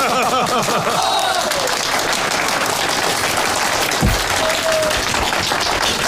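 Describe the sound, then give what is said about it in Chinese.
Group applause for a comrade at a wartime military meeting: a loud, dense, sustained roar of many hands clapping, with voices calling out over it at the start. “给钟勋同志鼓掌， 鼓掌！”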